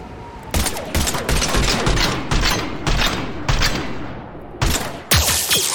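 Video game gunfire rattles in dense, rapid bursts, loud sustained volleys broken by a few brief pauses, with no talking over it.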